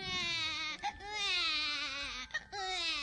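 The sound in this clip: A colicky baby cries in long, loud, high-pitched wails, broken twice by brief gasps for breath.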